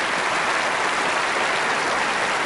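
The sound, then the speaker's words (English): Dense, steady applause from an audience for a group of children who have just performed music, a continuous wash of clapping that holds an even level throughout with no voices. “Give the kids one more round of applause.”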